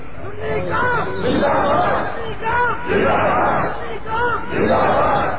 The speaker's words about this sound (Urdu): ہمیشہ نعرہ بلند کیجیے علماء اہل سنت سنی کون زندہ باد. یہ نعرہ بلند کیجیے